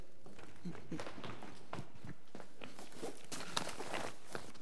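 Footsteps of a man walking down to fetch his bag, a brisk run of soft steps over steady background noise.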